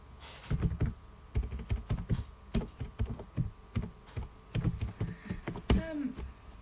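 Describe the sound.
Typing on a computer keyboard: many quick, irregular keystrokes in uneven bursts, fairly quiet and with no talk over them.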